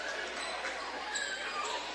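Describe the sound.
A basketball is dribbled on the court during a game, with soft bounces under a steady, dense crowd roar.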